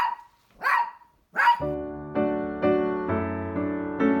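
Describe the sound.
A dog barks a few times on its own with sharp, loud, clipped barks. Music with evenly spaced, ringing notes then begins and carries on to the end.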